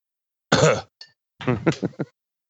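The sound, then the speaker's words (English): A person coughs and clears their throat: one rough, harsh burst, a tiny click, then a quick run of several shorter guttural coughs, fairly loud and with no talk. “Are you coughing into a glass or a bottle?”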